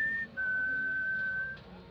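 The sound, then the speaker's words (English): A person standing in the street whistles up toward second-floor windows: a short, high note, a brief break, then a long, sustained, slightly lower note, clear over a low background hum. “stood in the street and whistled up to the second-floor windows, hoping to get his girlfriend's attention.”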